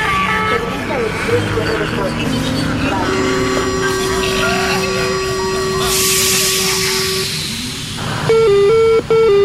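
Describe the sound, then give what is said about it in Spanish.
Metro train doors closing: a steady electronic warning tone sounds for several seconds, joined by a burst of hissing air near the end and a final pair of tones, all over rumbling train noise and voices. “Pues ahí se cierran las puertas.”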